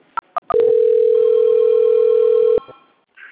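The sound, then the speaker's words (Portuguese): A telephone call-transfer tone on a phone line, played when a call is transferred again after it failed: three short beeps, then one long steady tone lasting about two seconds, then a faint trailing sound. “Eu vou transferir de novo que a ligação não foi, tá?”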